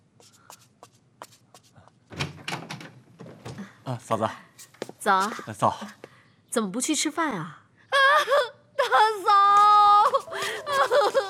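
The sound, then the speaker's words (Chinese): Tearful sobbing from a young woman being comforted by her sister-in-law, broken wavering cries in uneven bursts, mixed with speaking voices. “好了好了，行了，别哭了啊。”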